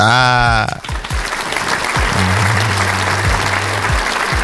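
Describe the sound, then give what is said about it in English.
Applause sound effect played by a talk-show host: a brief voice at the start, then steady, dense clapping that holds at a loud, even level to the end. “We'll get you some more applauses here.”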